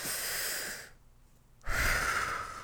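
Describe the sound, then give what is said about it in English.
One deep, calming breath: a steady, airy inhale, a brief quiet pause, then a fuller, louder exhale, heard alone. “I'm just going to take a deep breath. I'm going to take a deep breath.”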